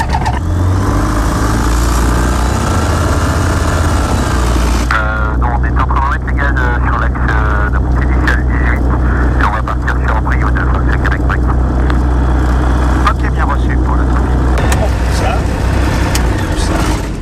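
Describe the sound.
Small aircraft engine starting up for a flying lesson, a loud, steady mechanical drone with a low hum throughout and voices talking over it.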